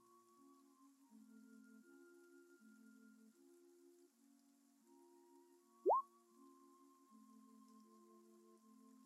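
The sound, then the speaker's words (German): Soft rain falls through a dark forest after a thunderstorm onto soaked ground, a faint patter with scattered plops set under a quiet tonal musical drone, with one sharp rising plop near the middle. “der Boden ist aufgeweicht von dem Gewitter noch von vor äh, einigen Stunden. Ähm, und jetzt regnet es schon wieder.”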